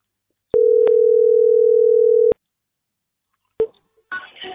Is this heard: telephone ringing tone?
yes